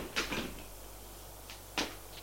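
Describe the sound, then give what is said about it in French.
A door opening into a large, dark living room: a few soft clicks and knocks from the handle and latch, faint over a low steady hum. “Il ouvre une porte”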